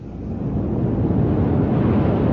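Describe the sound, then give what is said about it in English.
Tide rushing in on a Scottish firth makes a loud, steady, low roar of churning water and wind that builds slightly at the start and then holds without pause. “It's the tide. It comes in faster than an express train.”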